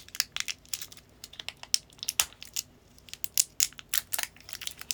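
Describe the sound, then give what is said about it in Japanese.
Packaging crinkles and tears as a package is opened, a busy run of many sharp papery crackles at an irregular pace, fairly loud, with no voices. “1組目を開封して、あと2セット目かな”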